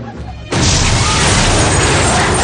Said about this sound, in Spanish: Una tremenda explosión hace volar por los aires el mercado. Desde una cámara de seguridad descubrimos que lo que estalla es el coche que segundos antes había dejado aparcado el hombre musulmán.